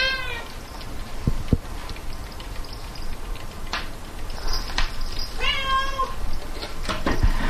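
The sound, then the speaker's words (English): Hungry cat whining for dinner, giving a few drawn-out, mid-pitched meows with gaps between them over a steady background hiss. “If you listen for a second, you hear my cat's whining.”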